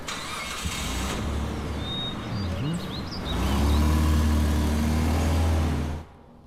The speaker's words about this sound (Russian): Он усаживает ее в машину. Сам садится, и они уезжают.